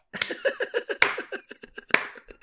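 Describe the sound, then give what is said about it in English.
Hand clapping comes in a run of many sharp, dry claps in quick succession, with two of the claps standing out noticeably louder than the rest. “There's my slow clap for you.”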